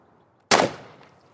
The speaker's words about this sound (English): fired into a block made of ballistic gelatin designed to simulate the effects of bullet wounds in human tissue. Fire!